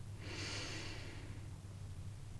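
A single slow breath drawn in during a guided chakra breathing exercise: a soft, airy inhale that swells and then fades over about a second, faint, above a steady low hum, with no talking.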